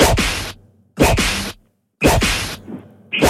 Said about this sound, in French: C'est un fouet et c'est une bonne réponse.